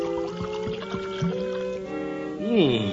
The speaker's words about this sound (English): Even got a big punch bowl full of mama's fermented kumquat juice and rainwater with pawpaws floating on top. I think I'll just sample it while I'm waiting.